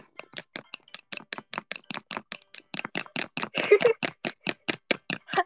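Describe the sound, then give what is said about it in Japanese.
Eggs being beaten in a bowl, heard as many quick, evenly spaced tapping strokes in a steady brisk rhythm that grow slightly louder midway. “じゃあ卵混ぜるね。”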